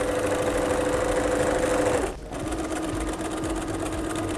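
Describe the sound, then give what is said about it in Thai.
A sewing machine stitches along the folded seam of a bag with a steady, even whir and hum. The sound breaks off briefly midway, then starts again and keeps running. “จากนั้นเราก็ค่อยๆพับแล้วก็เย็บไปตามรอยของแนวนะคะ”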